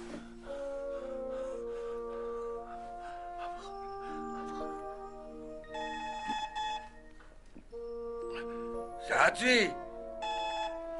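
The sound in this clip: A telephone rings with steady, sustained ringing tones, while people talk over it.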